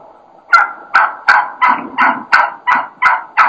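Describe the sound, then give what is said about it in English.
An excited, aggressive turkey hen yelps loudly in nine raspy, evenly spaced notes, each a short, sharp, slightly descending call in a steady rhythm. “kind of excited, kind of aggressive hen yelping at its best.”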